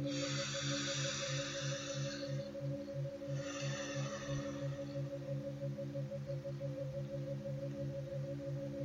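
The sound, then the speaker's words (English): Two soft, airy breaths, a deep inhale and exhale during a guided grounding meditation, rise and fade over a steady, low musical drone. “Take a deep inhale, and let go, and release deeper into your body. Cool in, warm out”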